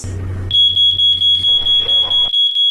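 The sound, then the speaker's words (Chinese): An alarm from a smart grain depot's online monitoring platform rings out as a fast, steady series of shrill, high-pitched electronic beeps. The beeps are loud and evenly spaced, and they continue to the end. “上午9点，仓管员柏路前接到智能化粮库在线监测平台报警，显示007号粮仓出现一个高温异常点。”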